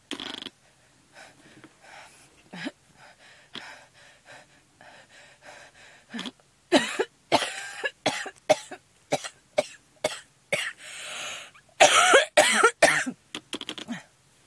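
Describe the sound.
A person coughs at length in a prolonged fit of many harsh, sharp bursts with gasping breaths, starting softer and sparse, then growing louder and denser toward the end.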